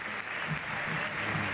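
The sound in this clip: Faint, brief applause from a stadium crowd at River Plate cheering Messi, a soft, steady hiss of clapping with no distinct individual claps.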